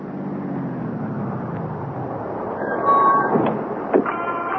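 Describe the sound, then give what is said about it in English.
A taxi pulls up in a radio drama scene: a low engine rumble grows louder toward the end, with brief high squeaks near the stop. “Taxi!”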